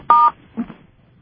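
Telephone tones mark incoming callers: a loud, steady two-tone beep lasting about a fifth of a second. A softer, brief second tone follows, then near silence.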